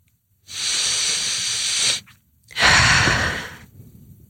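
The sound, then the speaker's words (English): Two long, deep breaths taken during a guided pause to calm the body, each a broad, airy rush lasting over a second, separated by a brief silence, with no talking. “Should we take a breath? Maybe one more.”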